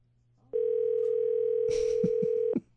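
A steady telephone dial tone sounds while a call is being placed. It is a loud, even hum lasting about two seconds, with a few brief noises near its end before it cuts off.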